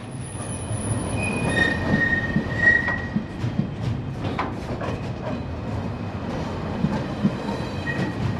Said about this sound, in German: Einzeln, zu zweit, zu dritt, wie von Geisterhand geschoben, rollen sie den Ablaufberg hinunter. Güterwagen, mehr als 2000 alle 24 Stunden,